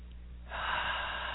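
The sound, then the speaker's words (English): A deep breath drawn in during a guided chakra meditation. A soft, breathy rush begins after a brief quiet moment and holds steadily to the end. “Nice deep breath.”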